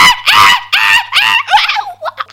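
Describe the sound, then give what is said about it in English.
People scream as they flee: loud, shrill, strained cries in several overlapping bursts that break up and grow ragged toward the end. “And the Kiki ran, and they fled as they screamed for their lives.”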